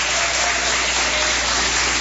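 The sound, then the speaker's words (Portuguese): A church audience claps in a steady, dense wash of hand claps, continuous and fairly loud with a muffled, dull tone. “Quem tem essa paz pode bater mais palmas, dar glória a Deus.”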